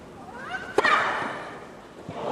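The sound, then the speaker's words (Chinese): A single sharp crack of a racket striking a tennis serve, Sabalenka's ace against Naomi Osaka while facing five match points, stands out briefly above a steady bed of background noise. “面对着5个赛点，萨巴伦卡直接打出了一记 ace 球。”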